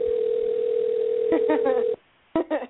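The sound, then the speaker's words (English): A steady, unbroken telephone dial tone hums while someone prepares to dial out, with a voice briefly over it near the end; the tone then cuts off into silence before a short burst of voice returns. “All right, I'm going to dial. We're just calling ourselves.”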